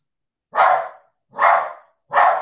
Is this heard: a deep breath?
no

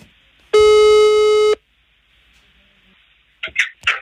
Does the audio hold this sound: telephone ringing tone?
yes

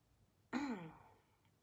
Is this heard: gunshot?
no

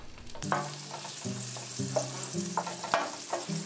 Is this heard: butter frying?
yes

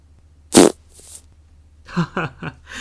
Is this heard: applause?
no

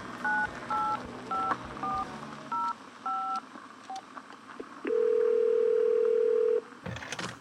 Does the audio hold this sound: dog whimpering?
no

